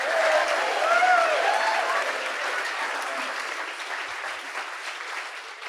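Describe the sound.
A live audience at the White Hart Inn in Salisbury, Connecticut, applauds to welcome an author onto a book show. The clapping is full and sustained, peaks early, then eases off gradually toward the end.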